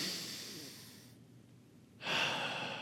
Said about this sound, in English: Everyone breathe in for a second, really, really big through your nose and then out your mouth.